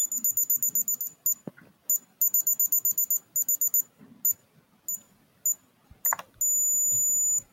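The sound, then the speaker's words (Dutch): Electronic ear thermometer beeping: many short, high-pitched electronic beeps in quick bursts with brief gaps, ending in one long, steady beep. “het was een elektrische thermometer die iedereen natuurlijk in zijn oor krijgt nu”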